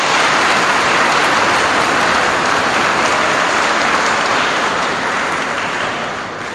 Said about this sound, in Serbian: pa jedan aplauz za nje.